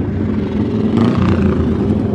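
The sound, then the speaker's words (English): A racing motorcycle passes at speed during a road race, a loud, dense engine roar filling the short moment without any talk. “Number 100 goes past as Heffin Owen. And yet another machine, 58, that's Carl Fox from Foxdale on the little Honda.”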